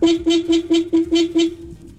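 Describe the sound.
Car horn honking in a rapid run of short, bright blasts over a steady underlying tone, evenly spaced and fairly loud, ending with a faint fading tail.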